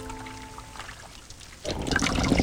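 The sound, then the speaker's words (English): Steaming water is poured from a teapot spout, a steady splashing pour that starts abruptly after a quiet moment and runs on without a break to the end. “In the castle, Belle pours steaming water from Mrs. Pot's spout.”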